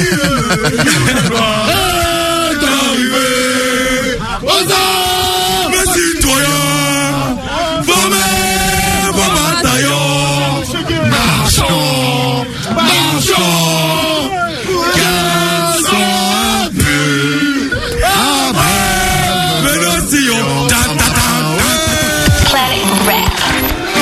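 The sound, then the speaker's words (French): A group of voices sings the French national anthem, the Marseillaise, together in a rap radio studio. The loud, sustained, melodic chorus fills the whole stretch without pause. “c'est incroyable cette Marseillaise. Cette Marseillaise entonnée dans le studio de Planète Rap.”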